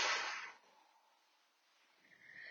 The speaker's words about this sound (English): Hold that breath at the top for 4, 3, 2, 1, and exhale, just let it go.